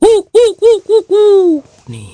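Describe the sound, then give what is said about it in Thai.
Five hooting calls from a voice imitating an owl at night. Four short, rounded hoots are followed by a longer one that falls in pitch, and the calls are loud and heard alone. “มันคือนกฮูกตัวหนึ่งนั่นเองนกฮูกตัวนี้ก็บินไปบินมาระหว่างเมืองปีศาจกับเมืองมนุษย์อยู่เสมอ”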